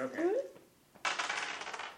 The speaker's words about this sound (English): So roll percentile dice.